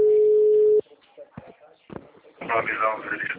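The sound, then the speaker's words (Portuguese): A telephone ringing tone plays while a call is being placed: one flat, steady tone that cuts off abruptly. A few faint clicks follow, then a voice comes on the line. “Te chamando.”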